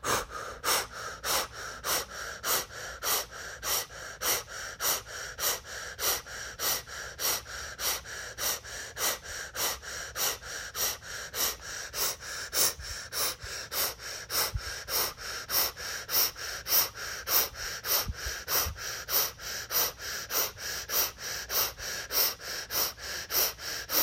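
Rapid, rhythmic breathing during a breathing exercise: many quick, even breaths pulse steadily throughout, with no talking.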